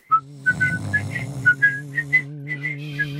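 Melodic whistling of a tune: a lively run of many short, clear, high notes rising and falling over a steady low sustained tone, with no talking.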